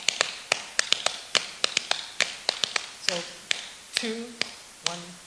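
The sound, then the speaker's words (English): Hands tapping a three-against-two polyrhythm, with many crisp, dry taps in an interlocking, repeating pattern and brief vocal sounds over the later taps. “So if I were to do three with one hand in the same time that I do two in the other hand, and it would sound like this.”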